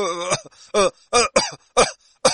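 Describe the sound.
A person coughs repeatedly in a series of six loud, harsh, voiced bursts separated by short pauses.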